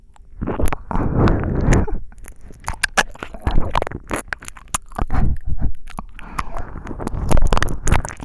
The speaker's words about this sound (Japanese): 私の指でもしゃぶってなよ。